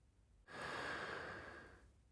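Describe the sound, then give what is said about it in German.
One deep breath taken in suddenly, then drawn out as a long, airy rush that slowly fades. It is quiet and heard alone, with no voice. “ich nehme einen tiefen Atemzug”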